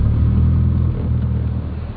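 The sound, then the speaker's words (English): An engine runs in neutral with the choke on just after starting, giving a loud, steady low rumble that dips slightly partway through and carries on evenly. “choke, check it's in neutral and push the button. didn't work, it's already riched up. There we go.”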